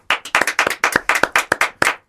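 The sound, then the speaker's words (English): Applause as a single pair of hands or small group claps in a fast, loud, steady run of about a dozen sharp claps, alone without talk. “Applause.”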